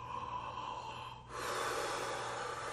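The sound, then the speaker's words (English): A deep, yawn-like inhale, done as a breathing exercise, begins midway as a soft airy hiss that swells into a long, steady breath drawn in through the mouth. The sound is faint throughout. “what we do is we focus on our inhale, like a yawn breath”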